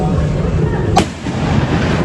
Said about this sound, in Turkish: Bir genç iki grup arasında yaşanan kavganın ardından pompalı tüfeğiyle işte böyle ateş açtı.